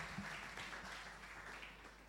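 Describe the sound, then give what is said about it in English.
Faint audience applause at a debate event: a soft, continuous patter of many hands clapping that stays low and even throughout. “One more time, a round of applause for Pierrot.”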